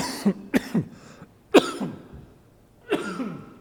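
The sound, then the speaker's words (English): A person coughs from a tickle in the throat: a few sharp, raspy coughs in separate bursts, with one stronger hack in the middle and a last one after a pause. No talking. “you feel a tickle in your throat, and you cough in front of God and everybody. No, I'm sorry. Excuse me.”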